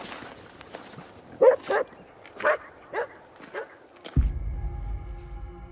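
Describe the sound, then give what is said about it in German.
A shaggy dog barking behind a night watchman tramping through a frozen winter night over hard-frozen snow, giving a few separate, fairly loud barks at uneven intervals. “Hinter ihm ein zottliger Hund.”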